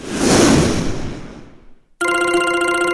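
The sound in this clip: A telephone rings loudly and steadily in the final second, starting abruptly after a broad rushing noise that fades out and leaves a brief near-silent gap.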